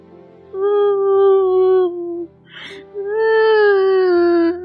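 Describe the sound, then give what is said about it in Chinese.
A voice imitates a wooden puppet crying and sobbing: two long, wavering, tonal wails with a short breathy sob between them, loud and clear. “小木偶突然呜呜的哭了起来。”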